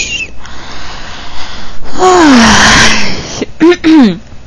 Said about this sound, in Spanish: Eso fue un bostezo de mucha alegría.